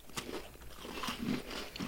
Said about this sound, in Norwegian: Det blir mye tyggelyder for lytterne våre ja, å holde seg til.